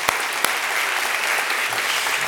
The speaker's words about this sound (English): can we give a massive round of applause and honor these men and women?